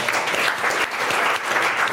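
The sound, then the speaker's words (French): Studio audience applause on a French-language show: loud, thick, steady clapping that runs throughout, with only a brief dip near the middle. “Qu'on applaudit, s'il vous plaît.”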